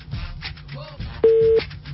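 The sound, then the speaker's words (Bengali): A telephone busy tone after a call cuts off, a steady low-pitched beep lasting about a third of a second, with the next beep starting at the very end, over faint muffled background noise. “ফোনে লাইনটা কেটে গেল অদ্ভুত অর্ধেক কথা হইল না”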